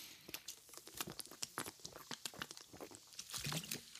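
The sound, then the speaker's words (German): A sip of medium-sparkling natural mineral water from Edeka: many faint crackles, clicks and fizzy crinkles in a quick, irregular stream, all quiet. “Erstmal einen Schluck trinken, Moment.”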